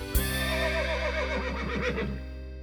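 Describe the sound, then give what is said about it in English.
A stallion's cheerful whinny: one long, wavering, bright neigh that rises and shakes before trailing off, heard over a steady low humming background. “The stallion greeted it with a cheerful whinny”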